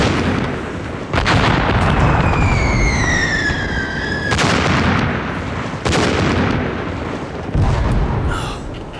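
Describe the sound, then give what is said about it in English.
Artillery bombards a city square in wartime. A heavy, continuous rumble is broken by a few sharp blasts, and a shell whistle falling in pitch ends in one of the impacts. “State Bank Square has been subjected to artillery bombardment.”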